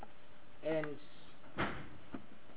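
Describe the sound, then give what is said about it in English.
Chairs shifted around at a meeting: a squeaky, pitched scrape, then two short dull knocks, fairly faint against a quiet room tone. “We're just changing chairs, what we call musical chairs. That's all we are doing.”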